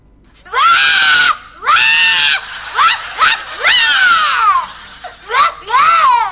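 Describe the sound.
A person cries loudly in high, drawn-out wails. The sobs are bleat-like, often fall in pitch and come in many bursts separated by short gaps.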